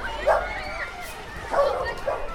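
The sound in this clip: Dog barking on a schoolyard playground, a few short, high yipping barks in two separate bursts with quieter sound between them.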